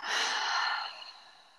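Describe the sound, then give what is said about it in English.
A slow breath, one long airy exhale that starts strong and soft-edged, then thins and fades away over its second half. “Can we take a breath together? Yeah, absolutely. Like, breathe in and out.”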